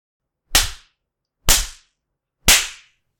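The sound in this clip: Three sharp open-hand spanking slaps on bare skin, delivered with the person lying across a lap. The slaps are loud, crisp and evenly spaced about a second apart, each ending in a short decay, with no talk.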